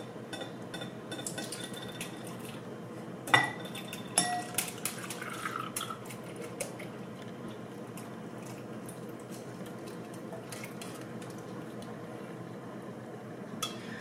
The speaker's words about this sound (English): what we're gonna do now is we're gonna try to strain this, and we are going to put it back in.